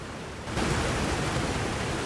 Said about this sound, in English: A towering waterfall in a forest.